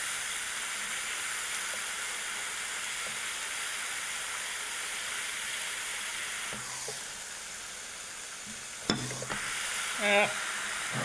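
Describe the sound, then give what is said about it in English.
Steady sizzle of a patty melt with pepper jack cheese frying on a $25 panini press, a continuous soft hiss broken by a few metallic clanks and scrapes near the end. “So, you know, I'm starting to like this Panini Press. I'm excited to see the egg sandwich. We're gonna do a patty melt here.”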